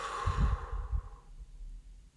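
A single deep breath is taken and let out as a long, soft exhale that trails off into quiet. No one speaks.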